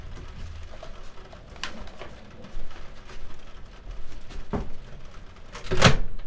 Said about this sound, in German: So, ich muss das zweite Fenster auch zumachen, weil das Wetter nervt mich tierisch.